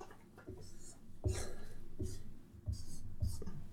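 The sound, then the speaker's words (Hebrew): Writing on a board during a lesson: a series of faint scratching strokes, each starting with a small tap, coming in short bursts with brief pauses between. “בסדר? כתבתי פה נבוב, נכון?”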